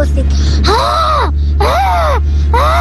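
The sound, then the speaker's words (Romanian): A voice imitates a tired train arriving at a station with three long, drawn-out groaning wails. Each one's pitch arches up and then sinks, with short pauses between them. “Uitați cum face un tren obosit care ajunge.”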